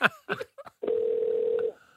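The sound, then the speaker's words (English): Brief telephone dialing tones followed by one steady, mid-pitched ring tone lasting under a second, placing a quick international phone call. “It's going to be a very quick phone call.”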